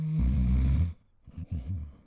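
Snoring of the kind linked to obstructed airways and sleep apnea: one loud, rattling, low snore fills the first part, followed by quieter, broken breathing noises.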